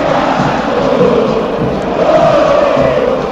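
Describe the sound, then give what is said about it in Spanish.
River Plate supporters chant in a packed football stadium during the first half of a match. The crowd roar is loud and continuous, and a sung chant swells and dips within it. “El público de River”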